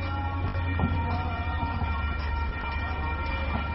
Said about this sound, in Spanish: escuchamos al tren pasar